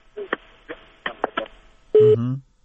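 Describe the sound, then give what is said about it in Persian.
A telephone busy tone sounds after a radio caller's line disconnects: one short, steady electronic burst that follows a few spoken syllables. “متاسفانه چې تلفن مخالفش قطع شد.”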